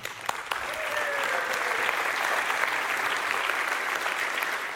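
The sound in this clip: A church audience claps to welcome their pastor at a service. A few sharp claps open it, then steady, full applause holds at an even level throughout.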